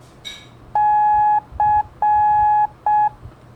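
Morse code letter C sounds as four steady mid-pitched beeps, long, short, long, short. A brief chirp comes just before the first tone.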